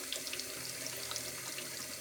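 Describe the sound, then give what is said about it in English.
Tap water runs steadily into a sink, a hand held in the falling stream, making a continuous, fairly quiet splashing hiss with no voices. “All I know is that if I position my hand within the flow of the water, then I can receive.”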